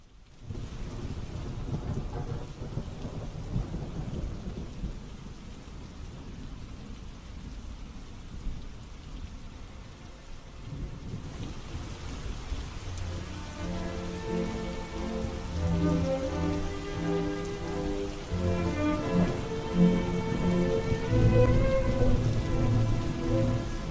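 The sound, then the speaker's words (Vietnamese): Heavy rain patters steadily outside, a dense, continuous wash broken by low rumbling thunder. The downpour grows fuller and louder through the second half, with no voices. “lắng nghe tiếng mưa lộp bộp ngoài kia”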